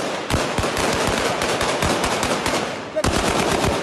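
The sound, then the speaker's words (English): Live gunfire as police and the army quash a riot in the middle of Kampala: many rapid, sharp shots in dense bursts over a constant rumbling roar, with a short lull before more shots. “Live bullets were fired and tear gas was used today as police and the army attempted to quash a riot in the middle of the city.”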